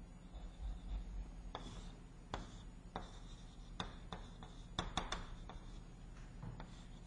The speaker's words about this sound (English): And let me try to draw a Gaussian. It should be symmetric, of course.